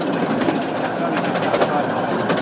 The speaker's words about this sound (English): This is a steam train. It's a miniature railway. I think it's 1/3 the size of a normal one.